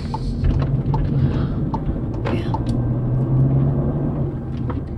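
A car drives through residential neighborhoods, heard as a steady, loud low rumble of engine and road noise with a few faint clicks and rattles on top, continuous throughout.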